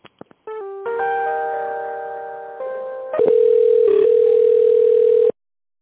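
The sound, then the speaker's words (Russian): Telephone tones play while a call is transferred to a specialist: a few short clicks, then loud, steady electronic tones that step between pitches and end abruptly. “по банковской гарантии я вас сейчас могу соединить со специалистом”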